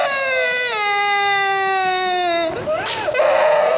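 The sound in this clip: A young child crying, first a long, high, tonal wail that slowly sinks in pitch, then breaking into a shorter rising-and-falling sob.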